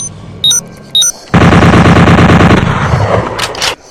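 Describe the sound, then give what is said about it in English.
Rapid automatic fire from a bolt gun in a shooter video game: two short electronic tones, then a loud, continuous burst of fast, evenly spaced shots lasting a few seconds before cutting off. “Automatic bolt gun. With distance on my side, not theirs.”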